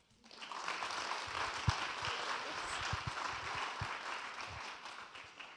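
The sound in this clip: Church audience applauding to welcome a woman speaker, a steady wash of clapping with several heavier low claps scattered through it, swelling quickly at the start and tapering off at the end.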